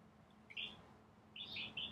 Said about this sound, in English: See, sometimes you just gotta be quiet and just let the bird sing.